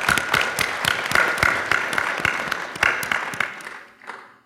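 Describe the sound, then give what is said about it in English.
Audience applause for a speaker at a tech industry lightning-talk event: brisk, crisp clapping with distinct individual claps, holding steady before thinning and dying away at the end. “Give her a hand.”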